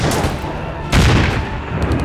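A hand-held grenade launcher fires once: a sudden loud, broad boom about midway, trailing off into a rumbling tail over constant background noise.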